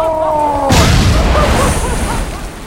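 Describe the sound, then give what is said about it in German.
An explosion in a radio play: a steady humming tone is cut off by a sudden loud boom, then a dense rumbling, crackling tail fades slowly. “Das Böse ist gerade explodiert.”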